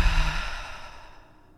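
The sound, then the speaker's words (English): A single long breath out through the mouth, part of a guided meditation's nose-in, mouth-out breathing; a soft, airy sigh that starts fairly full and fades steadily to near silence, with no talk over it. “Inhale through your nose. Exhale through your mouth.”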